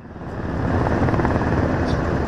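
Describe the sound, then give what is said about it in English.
Helicopters land and circle over the South Korean national assembly grounds. A dense, loud rotor roar with steady low chopping swells slightly after the start and then holds constant. “Helicopters were seen landing inside the South Korean assembly grounds while others circled above the site.”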